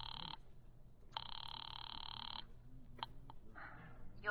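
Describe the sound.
A telephone bell rings twice, a short first ring and a longer second, each a buzzy, metallic trill, faint and alone, followed by a few brief clicks.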